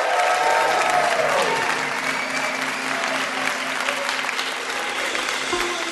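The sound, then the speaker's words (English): Audience applause for the guests at a live game show: full, steady clapping from a crowd that holds at an even level for about six seconds before easing slightly toward the end. “Can we give one more hand, please, to all our guests tonight?”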